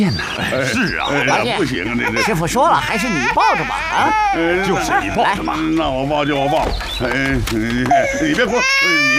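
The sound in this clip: An infant crying loudly and without pause, with high, wavering wails and sobs overlapped by people talking.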